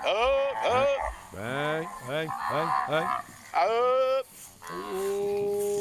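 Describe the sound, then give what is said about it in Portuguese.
Cattle in a herd mooing from a video played on a phone, with several overlapping drawn-out calls of varying pitch following one another throughout. “Rapaz, boiada boa.”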